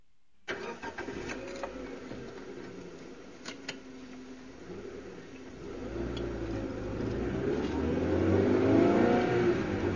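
A car engine starts and then revs as someone drives off, a low rumble that grows steadily louder toward the end, with no talk.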